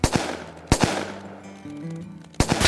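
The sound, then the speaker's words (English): Gunshots fired at swinging bottles and cans: a few sharp, loud cracks arriving in quick pairs, with a brief ringing tail between the bursts and no voices. “I took my aim and fired.”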